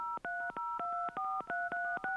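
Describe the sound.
Telephone keypad tones as a number is dialed, a quick run of many short steady beeps, each a different pitch, clean and unaccompanied by any voice.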